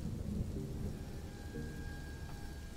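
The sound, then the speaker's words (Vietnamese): Thunder rumbles through heavy, pouring rain in a sudden storm: a steady, loud wash of low rumbling noise with no break or pause across the whole stretch. “Đúng khi ấy, vang lên từng đợt sấm sét, cơn mưa ào ào đổ xuống, không có dấu hiệu báo trước.”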